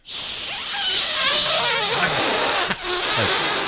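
Someone blows into a breathalyzer alcohol tester, producing a strong, continuous breathy hiss that starts abruptly and holds for several seconds with only a slight dip near the end.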